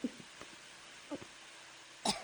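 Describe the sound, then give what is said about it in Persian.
A child coughs after drinking undiluted syrup. A few short, quiet coughs are spaced apart, with the last one the strongest. “پس چرا سرفه میکنی؟”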